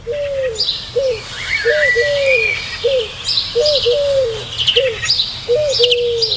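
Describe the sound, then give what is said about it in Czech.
A bird calls before dawn, repeating a short cooing phrase about a dozen times in a steady rhythm, with higher chirps and twitters from other birds layered above it. “Tenhle zvuk tohohle ptáka mě děsí.”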